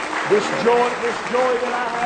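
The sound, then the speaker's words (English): An audience claps hands in praise at a morning church service, a dense, steady patter of applause with a voice speaking over it. “Give him one more good hand clap of praise this morning.”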